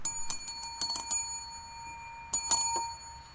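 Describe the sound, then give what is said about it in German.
Doorbell ringing, played as a sound effect during a live reading. Bright, metallic rings come in two quick clusters separated by a short pause, fairly faint and with no talk over them. “Die Klingel.”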